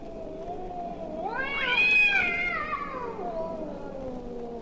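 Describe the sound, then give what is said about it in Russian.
A cat's loud drawn-out yowl from a nighttime rooftop cat concert in March, one long wavering cry that rises in pitch, peaks, then slowly falls, with no other sounds. “Звучит знаменитый кошачий концерт. Такие концерты происходят на крышах домов по ночам. В марте кошкам они очень нравятся.”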